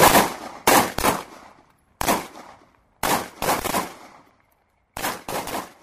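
Pistol shots ring out on an army barracks pistol range as three soldiers train. Sharp, loud cracks come in quick clusters of two or three, with short pauses between the groups.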